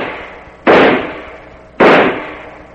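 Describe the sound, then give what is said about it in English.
Two loud, sharp pistol shots fired by a woman at a man-sized silhouette target on a low hill at six in the morning, each an abrupt crack followed by a long fading tail, about a second apart, with no voices. “Mercy, who'd ever thought I'd be out at 6 o'clock in the morning shooting at a man-sized”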